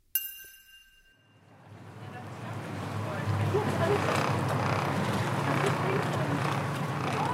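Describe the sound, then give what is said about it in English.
A motorboat heads north of Tofino on Vancouver Island on its way to harvest kelp. Its low, steady engine drone and rushing water build over the first few seconds, then hold at a constant level. “That's the sound of a motorboat making its way north of Tofino on Vancouver Island, on its way to harvest kelp.”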